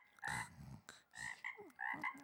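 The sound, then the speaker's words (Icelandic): Croaking of a small frog: a handful of rough, throaty calls in uneven bursts, the first long and the later ones shorter, loud and with no other sound. “Það var lítill froskur fyrir utan sem spurði.”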